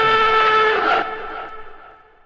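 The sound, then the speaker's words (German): Radio show jingle: a bright, sustained musical chord holds loudly for about a second, then cuts off and leaves a quieter tail that fades away. “bevor ich da jetzt drauf eingehe, muss ich den Jingle abfahren.”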